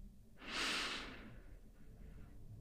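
A single deep inhalation during a guided relaxation breathing exercise swells into a soft airy rush for about a second, then tapers off over a low, quiet background hum.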